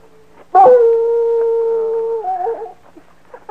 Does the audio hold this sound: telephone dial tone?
no